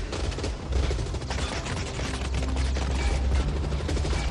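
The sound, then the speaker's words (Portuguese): Gunfire in a film scene comes as a dense, sustained burst of rapid shots, a rough continuous crackle and rattle throughout, moderately loud and without talk. “Todos os filmes do Exterminador eu fico triste nessa parte, cara, que eles atiram e tiram o rosto dele”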